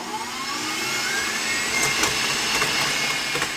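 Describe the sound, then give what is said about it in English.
Egg yolks are whipped with sugar toward the ribbon stage, giving a loud, steady whirring drone with a thin high whine that holds evenly throughout, with no talking. “whip this until it forms a ribbon. So the egg yolks will get nice and yellow, a very, very kind of sunny color when they whisk with the sugar”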